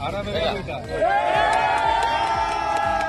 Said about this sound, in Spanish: la alegría de los rescatistas cuando consiguen sacar de entre los escombros a personas con vida. Este es el sonido de los brigadistas españoles de la UME,